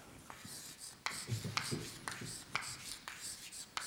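Faint, scratchy strokes of a word being written out by hand, many short scrapes in an uneven rhythm over a quiet background.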